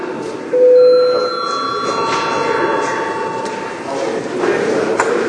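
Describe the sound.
A bell rung in a parliament chamber, one bright strike whose ringing tones fade slowly over a steady murmur of voices.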